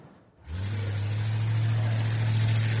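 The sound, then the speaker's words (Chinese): A driverless 1965 Ford Mustang's engine kicks in after a short pause, then holds a steady, loud, low drone as the car drives on, with no voices. “这款经典的1965年福特野马实际上是无人驾驶的，这可能解释了它不均匀的转向”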